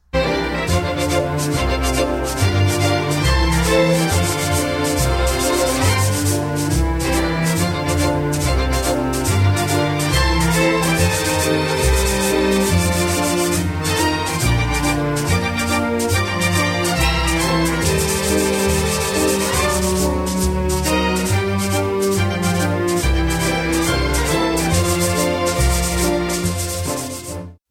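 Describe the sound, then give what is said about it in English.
Blocks of sandpaper are rubbed together in crisp, rhythmic swishes and scrapes. They play along with a full orchestra for the whole passage at an even, steady level. “listen to the way I can create, with my blocks of sandpaper, different rhythms between me and the orchestra.”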